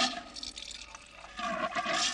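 Fizzy soda pours into a glass with a soft, continuous hissing and splashing that swells slightly toward the end, faint throughout.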